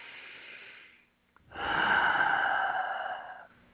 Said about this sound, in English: I want everyone to take a deep breath right now.